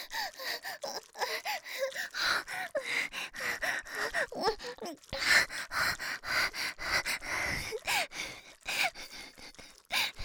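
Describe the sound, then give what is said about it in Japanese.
Heavy, hard panting from a frightened, red-faced person: a fast, uneven run of loud breaths with sharp gasps and breathy groans, repeating throughout without any speech. “お顔を真っ赤にしながら、はあはあはあと必死に息を荒げちゃって”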